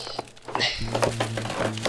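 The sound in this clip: Paper crinkles and rustles as a folder labelled Blackstone is opened and its contents leafed through, a few short, crisp handling sounds at a fairly low level.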